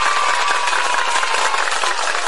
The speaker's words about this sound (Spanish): Da un aplauso a la palabra de Dios.